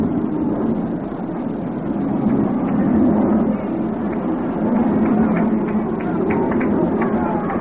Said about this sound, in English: He calls down and backs out until a plane gets by. Time call because of aircraft.